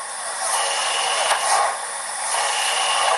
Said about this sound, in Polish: Służyła do napędu urządzeń gorzelnianych. Nie mam takiej informacji, do którego roku istniała gorzelnia w Grabowie. Natomiast do nas trafiła już niesprawna i niekompletna. Skompletowaliśmy tę maszynę i dzisiaj mamy próbny rozruch.